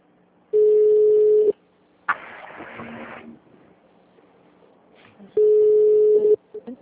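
Ringback tone of an outgoing phone call: two steady, mid-pitched tones of about one second each, spaced roughly four seconds apart. A short noisy burst falls between them.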